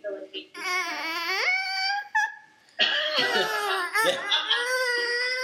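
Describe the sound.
Baby whining and fussing: high, wavering harmonic whimpers and drawn-out cries that carry on almost continuously, with a short pause partway through before the fretful sounds resume.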